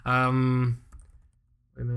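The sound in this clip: Computer keyboard typing of a Google search: a short stretch of light, quick clicks sits between voices, with people talking just before and after.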